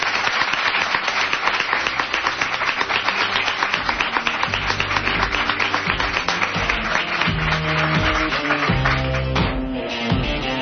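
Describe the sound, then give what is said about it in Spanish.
Studio audience applause fills the stretch, a steady dense patter of many hands clapping at an even, moderate level for around ten seconds, with a low musical bed sitting underneath and no talking. “A todos ellos les damos las gracias y todos ellos os saludan con este aplauso a continuación.”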